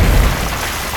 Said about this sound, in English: this bomb lobs up through the cavern and lands at your feet and then detonates.